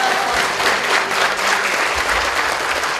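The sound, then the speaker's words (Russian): Audience members welcoming the Metropolitan of Volokolamsk at a talk give a short burst of dense, steady, fairly loud clapping. “Я еще ничего не сказал, а вы уже хлопаете.”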